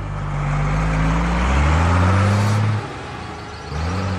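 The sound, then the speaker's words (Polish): Tractor engine running as the clutch is pressed, a gear engaged and the tractor drives onto a road: a loud, steady low drone whose pitch climbs slightly, then drops off abruptly before the engine picks up again. “Ten wcisnął sprzęgło, wrzucił bieg i wjechał na szosę.”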